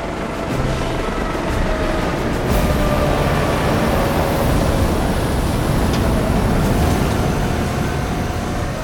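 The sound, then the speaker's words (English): A hovercraft descends over derelict factory buildings onto a concrete roof, churning up dust, with a steady, loud, dense roar of engine and rushing air that holds evenly throughout. “the hovercraft soars over the derelict factory buildings of District 8. Clouds of dust churn below as the craft descends to the concrete roof of a building.”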